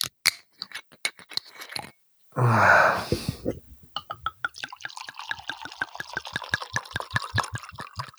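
A bottle of vinho verde wine being opened and poured: scattered clicks, a short loud burst of hiss, then a steady run of gurgling glugs as the wine flows.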